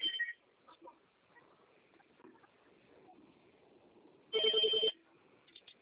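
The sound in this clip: A telephone rings in a quiet room: one clear electronic ring burst in the second half, a brief tone at the start, and faint background noise between.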